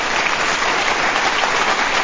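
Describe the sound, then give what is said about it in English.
Canned audience applause sound effect: a steady, dense wash of clapping with no voices. It sounds slightly muffled and thin at the top. “Play that pocket audience applause one more time.”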